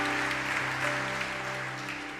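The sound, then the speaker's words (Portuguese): An audience applauds during a church service, a steady, even wash of clapping that holds at one level for about two seconds over sustained low tones, with no talk. “Pode aplaudir o Senhor que é santo.”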